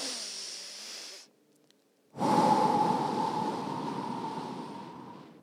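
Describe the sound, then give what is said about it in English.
A deep breath is drawn in for about a second, followed by a short silent pause and then a long, steady exhale that slowly fades over roughly three seconds, as in a calming breathing exercise. “so what you do is you take a really deep breath in”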